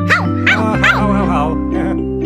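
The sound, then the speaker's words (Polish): A sung voice imitates a dog barking in a children's rhyme, giving a few short, bouncy 'woof' syllables with leaping pitch over a steady musical accompaniment. “Piesek szczeka.”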